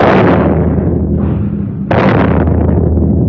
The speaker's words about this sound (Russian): Это что такое? Поручик Борейко! Японцы начали обстрел батареи.